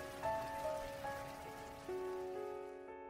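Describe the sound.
Light rain falls in a steady, soft patter, accompanied throughout by gentle sustained tonal notes at a moderate, even level.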